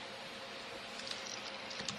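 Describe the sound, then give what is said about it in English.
Computer keyboard keys pressed while navigating a file, heard as faint, scattered clicks over steady hiss and growing more frequent toward the end. “I am going to open a file and navigate using keys without layering.”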